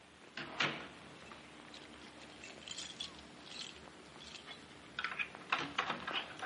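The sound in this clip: Someone fumbles with a door lock at night, producing faint, irregular metallic clicks and rattles that grow busier toward the end. No voices.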